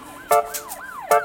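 An emergency vehicle siren wails in a city, its tone sweeping up and down in quick, repeated cycles, loud and clear with no talk.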